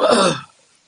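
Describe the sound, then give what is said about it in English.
A single harsh cough or throat-clear from a person bursts out loudly for under half a second, then stops into near silence. “You started to cough, right”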